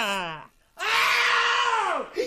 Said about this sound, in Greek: Και με αυτή την τρομερή προειδοποιητική κραυγή της μάγισσας Μπρουνχίλντας